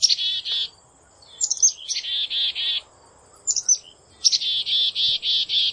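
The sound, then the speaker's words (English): Black-capped chickadees call in repeated bouts, each a thin high note followed by a run of buzzy, evenly spaced notes, with quiet gaps between bouts and a faint insect hum underneath. “That's the familiar call of the black-capped chickadee.”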